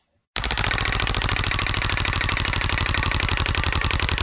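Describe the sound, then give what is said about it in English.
A prize wheel spins with rapid, evenly spaced clicks that start abruptly after a brief silence and continue loud and steady to the end. “Okay. So I'm going to spin the wheel now.”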